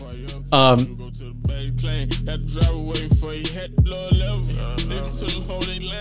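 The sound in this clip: A hip-hop track plays loud and steady, with a deep sustained bass, regular punchy beat hits and a melodic line that slides in pitch near the start.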